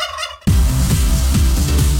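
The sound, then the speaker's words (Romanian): Turkey gobbling, loud and sudden after a brief quieter start: rapid, rhythmic, throaty burbling bursts repeat steadily to the end, with no voices. “Treci pe curcan.”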